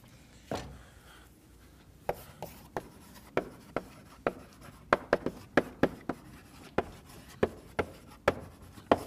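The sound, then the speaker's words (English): Handwriting on a surface during a lecture on greedy algorithms, many sharp taps and short scratches in an uneven rhythm as a dynamic program is written out, quiet between strokes, with no talk. “And let me write down that dynamic program.”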